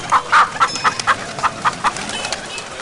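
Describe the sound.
Village chickens cluck in a quick, steady series of short, sharp pulses, many clucks following one another at a fairly even pace, loud and clear with no voices.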